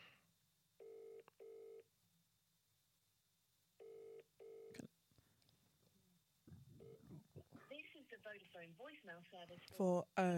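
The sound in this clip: Telephone keypad dialing tones as a call is placed, heard as two short bursts of beeps separated by a pause. A click follows, then voices talk.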